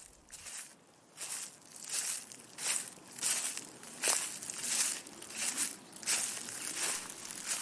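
Crunching, rustling footsteps as a group walks from a beach onto a trail into a fairly dense forest, many steps at a steady, regular pace.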